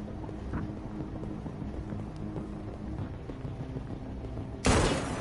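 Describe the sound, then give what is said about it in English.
A single sharp gunshot bursts out near the end of a stretch of low, rumbling background in a video game. It is loud and abrupt against the steady murmur. “Man, just shooting now.”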